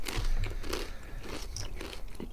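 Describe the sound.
Crunching and chewing on a salty cheese-flavoured snack, with many crisp bites and brittle cracks in a steady, continuous run of fairly soft, dry crunches.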